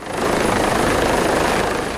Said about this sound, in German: Ein Hubschrauber landet auf dem Helideck des Umspannwerks, mitten in der Nordsee, rund 40 Kilometer nördlich von Jüst.